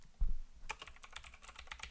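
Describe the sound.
Quick typing on a computer keyboard: a rapid, uneven run of light keystroke clicks, fairly faint, with no talk over them.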